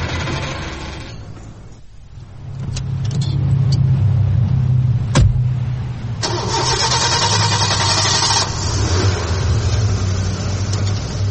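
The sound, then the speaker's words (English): A white station wagon's engine starts, swells in loudness, then runs at a steady, loud mid-pitched roar with no voices. “Eventually, they drove off in a white station wagon with me in tow.”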